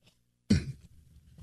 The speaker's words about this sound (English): Excuse me, tickle in the throat.